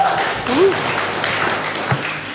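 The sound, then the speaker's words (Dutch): Audience applause at a live show after a segment on a painting biennale in a museum: a dense, steady wash of clapping that lasts the whole clip, with a brief whistle-like tone near the start. “Geef ze allebei een heel groot applaus.”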